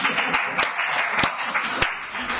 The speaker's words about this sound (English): Could we clap? Are we allowed to clap?